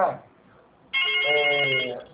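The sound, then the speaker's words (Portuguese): A telephone rings with an electronic melodic ringtone. After a brief moment of voice, the bright, tonal chime starts abruptly and holds steadily to the end, shifting notes a couple of times. “Agora ele tá tocando, tá vendo o telefone? Tocou e parou aqui.”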